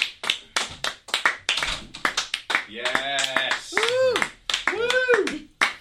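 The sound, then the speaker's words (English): Scant applause from a studio crew: sparse, irregular hand claps from a few people, with voices talking over and between them. “from backstage and to scant applause from the crew”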